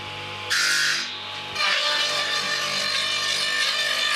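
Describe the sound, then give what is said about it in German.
A saw cuts dried wooden walking sticks to length, starting abruptly with a bright, steady rasping whine over a low machine hum, dipping briefly, then running on evenly. “Also hier werden die Stöcke auf Länge gesägt. Praktisch jeder Stock muss ja passend zum Wanderer auch angepasst werden. Und diese Stöcke werden halt hier auf Länge gesägt”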